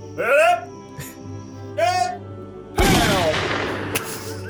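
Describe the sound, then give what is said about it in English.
Gunfire for a 21-gun salute: a loud, sharp burst that decays over more than a second, followed by another short crack near the end, with two brief voiced calls before the shots. “Let's have a 21 gun salute to the American hero.”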